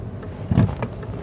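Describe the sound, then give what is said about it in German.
Groceries tipping over in a car boot make a brief dull thump, a soft low knock followed by a couple of lighter clicks over a faint background hum. “Das war gerade mein Einkauf, der im Kofferraum umgekippt ist.”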